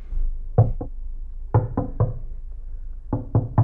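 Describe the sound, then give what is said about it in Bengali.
Knocking on a door: eight firm, hollow knocks in three quick groups, two, then three, then three, with short pauses between and no voices. “কে কে দরজা ঠকঠক করছে?”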